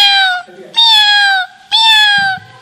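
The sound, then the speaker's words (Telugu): A seventh-grade boy imitates a cat with his voice, producing three loud, drawn-out meows. Each is high and nasal, sliding slightly downward, with short gaps between them. “పిల్లి ఇలా అరుస్తుంది,”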